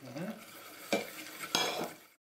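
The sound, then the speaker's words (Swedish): Eggs, milk and butter being mixed in a bowl, a soft stirring hiss with two sharper clinks of a utensil against the dish, ending abruptly. “Man tar två ägg. Sådär. Lite mera mjölk. Inte glömma smöret, ner med det.”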